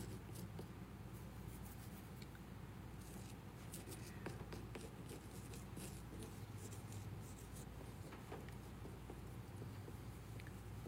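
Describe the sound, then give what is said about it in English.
Faint scratchy writing as something is written out, many short pen or marker strokes rasping and tapping in an uneven rhythm over a steady low hum, with no talk. “Now, I wanted to take a second to write that out because this is a summary, in a sense, of Jesus's ministry.”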